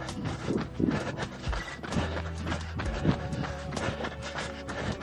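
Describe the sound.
Running feet pound out a rhythmic jog in place on a firm, flat surface during a strength workout, a steady quick patter of footfalls that stays even and moderately loud throughout.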